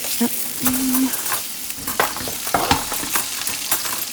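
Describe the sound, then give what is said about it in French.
Frying sizzle of tire pieces sautéed with onions in a pan: a continuous crackling hiss scattered with sharp pops and clicks, moderately loud and steady throughout. “Des morceaux de pneus sautés aux petits oignons.”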